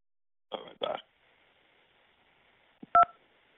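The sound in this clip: Telephone keypad tones as a number is dialed during a prank call. A few short, sharp beeps come near the end, after a brief bit of faint speech.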